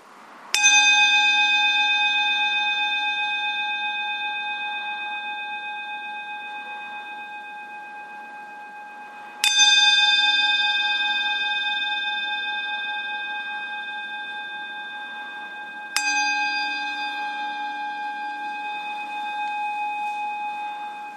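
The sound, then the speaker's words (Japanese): A bell struck three times, each strike a clear, bright ring with sustained overtones that slowly fade before the next, alone in quiet. “私が鐘を3回鳴らしますから、鐘の音に集中してみてください”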